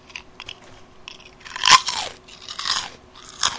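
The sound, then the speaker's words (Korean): Snack crackers, eaten in place of bread, are crunched and chewed in a series of sharp, crackly bites and munching bursts of uneven loudness, with the strongest crunch midway and no talking. “빵이 없어서 빵 대신 과자를 먹고 있어요.”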